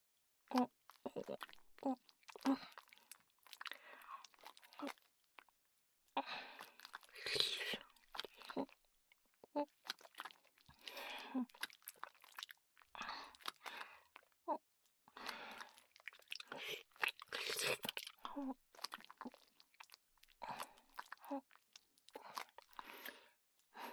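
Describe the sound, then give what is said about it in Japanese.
Close, wet biting and nibbling mouth sounds acting out a bite on someone's neck: many short crunchy bursts in an irregular, continuous stream at a soft level. “首噛んであげる。痛かったら声あげてね。”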